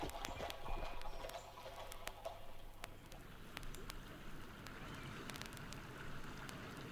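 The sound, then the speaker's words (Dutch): Hooves of a mounted postillon's horse, the mail rider's mount, give many irregular sharp knocks over a steady hiss like rain, with no voices. “Tot halverwege de vorige eeuw geven de mensen hun brief mee aan een bode te voet of een postillon te paard.”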